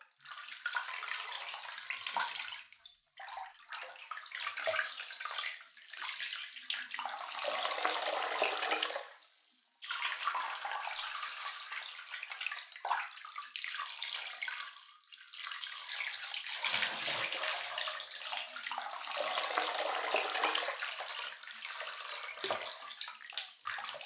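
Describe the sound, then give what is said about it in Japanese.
Hot water splashing and pouring in a draining bathtub while soap foam is rinsed away, a continuous rushing gush broken by a few short pauses, with no voices. “お湯を抜きながら泡を流していきますね。 お湯をかけますよ。”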